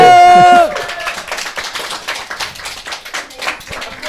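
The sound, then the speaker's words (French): An audience applauds with a brisk, dense patter of many hands that continues fairly loudly at a steady level for several seconds. “Hein, t'as plus d'applaudissements que Hillary Clinton”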